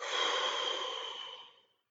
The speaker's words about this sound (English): Another big, deep breath in. And out.